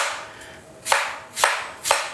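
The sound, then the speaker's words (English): An apple is sliced with a Japanese slicing knife: three crisp, evenly spaced cuts, each a sharp, bright swish over a soft background hiss, with no talk. “I love this fancy Japanese slice knife. Slice some for you.”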